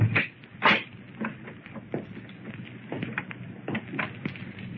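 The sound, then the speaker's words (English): A door is opened: a couple of sharp clunks at the start, then softer scraping, rattling and small knocks that continue quietly. “The door, monks. Go on, try it. Maybe it's unlocked. All right. Hey, it is unlocked. Well, go on, open it. Go on in.”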